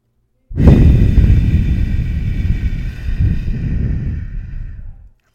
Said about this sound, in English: So breathe in for a count of 4, hold for a count of 4, and release for a count of 4.